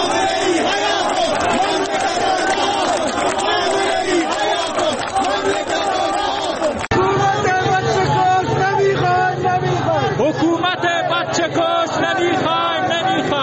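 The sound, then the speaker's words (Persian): Crowd of protesters chanting in the streets of Zahedan, Iran, on a Friday, a dense mass of voices shouting together without pause, loud and sustained throughout, with a brief dip partway through before the chanting resumes at full strength. “این صدای مردم در زاهدان در امروز بود”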